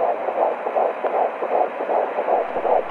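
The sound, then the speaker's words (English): Fetal heartbeat before birth, heard as fast, regular whooshing pulses over a steady hiss, with no voices. “That heartbeat is what an adult heart sounds like, but this is what your heartbeat sounded like before you were born.”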